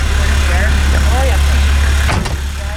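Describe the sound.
A municipal gritting truck drives along the road, its engine a steady low rumble throughout, with faint voices over it and a brief knock near the end.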